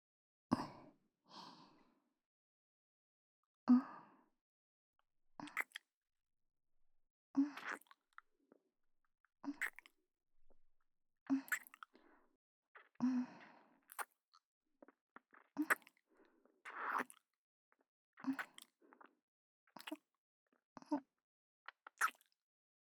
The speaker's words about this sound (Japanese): 私の方はご主人様に口づけ させていただきます。